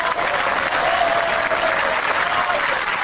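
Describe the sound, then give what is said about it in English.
LDP lawmakers in an auditorium at the party's Tokyo headquarters applaud Abe's election victory with dense, loud, even clapping that carries on without a break. “When the official tally was announced, LDP lawmakers in the auditorium cheered Abe's victory.”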